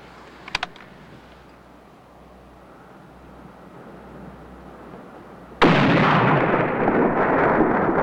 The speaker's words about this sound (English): Mingo dismounts with his rifle. He puts the telescopic sights to his eye and targets the man with the poncho. He fires, and the man falls from his horse wounded.